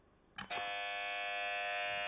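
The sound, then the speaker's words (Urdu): A quiz show buzzer goes off once as a contestant presses it: a brief clicky onset, then a loud, steady electronic tone with bright harmonics that holds unbroken for well over a second and a half. “ایک بار پھر buzzer press کر کے اپنی position مستحکم کرنے کی کوشش کی ہے”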